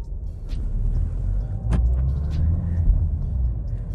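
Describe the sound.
A borrowed family car being driven gives a steady, low engine rumble and road noise throughout, with a few faint brief clicks and no talking.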